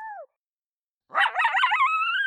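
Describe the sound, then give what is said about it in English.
A dog's lone howl: a brief falling tonal cry, a pause, then a long wavering howl with pitch breaks and warbling that settles into a steadier, sustained high tone, loud and heard alone. “Those are all different recordings. They're all different lone howls produced by Moto. Good pitch breaks, good tapered off howls, excellent stand starters.”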